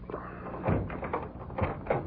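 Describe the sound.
A key rattles and turns in the lock of a rented home's door, producing a few soft metallic clicks and clunks in an uneven sequence.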